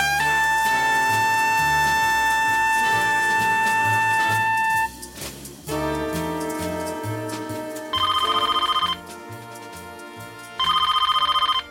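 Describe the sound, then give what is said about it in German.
A telephone bell rings in two short, shrill electronic bursts near the end, sounding over a steady bed of music with sustained tones. “Das Telefon klingelte.”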